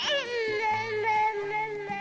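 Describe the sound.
A six-month-old baby trying out a new tone of voice, a long high-pitched wavering cry that dips in pitch at the start and then holds steady, fairly loud.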